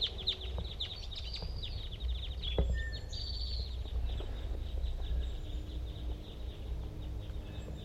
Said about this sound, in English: there's a male hanging out very tight, and a lot of other cross-bills. They all appear to be the same call type, big guys. I'm going to record that male.